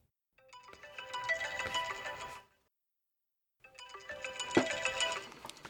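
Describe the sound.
A phone ringtone plays in two melodic electronic bursts of about two seconds each, separated by a pause of silence. The tone is fairly quiet, and the second burst peaks slightly louder.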